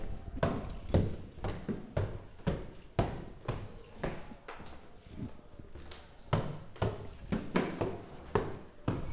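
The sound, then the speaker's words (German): Footsteps climbing three floors of stairs in a hackspace building: many firm, evenly spaced thuds in a steady walking rhythm, with no talk. “Ich komme da jetzt mal hoch. Drei Stockwerke Treppen.”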